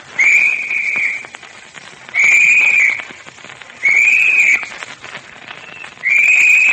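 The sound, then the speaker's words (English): Four bright, high-pitched whistle blasts ring out as a signal, each lasting roughly a second with quiet gaps between them. “He'll blow the usual signal. 3 short, quick blasts on the whistle.”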